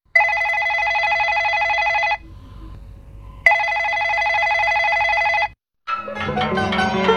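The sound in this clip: Electronic ringtone of an incoming mobile phone call: two long, steady bursts of bright warbling tone separated by a short pause, followed by music starting up after a brief silence.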